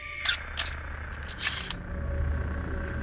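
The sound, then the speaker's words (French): An automatic camera shutter fires during a ghost investigation at the Château de Veauce, giving a few sharp, dry clicks that stand out over a faint, steady low hum. “L'appareil photo se déclenche automatiquement.”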